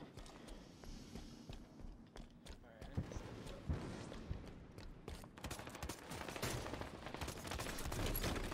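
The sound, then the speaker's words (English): Gunfire crackles in a first-person shooter video game where a player has a sniper rifle, with many sharp shots and rapid bursts that grow denser toward the end, all fairly faint. “Why everybody wanna shoot at me when I get a sniper rifle?”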